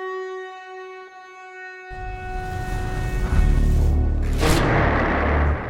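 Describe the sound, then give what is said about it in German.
Rock blasting for tunnels on a Bavarian mountain hydroelectric power plant project near Kochel: a steady harmonic tone holds, then a sudden broad rumbling roar breaks in and swells louder, with a sharp hissing burst near the end. “Tunnel werden in den Fels gesprengt.”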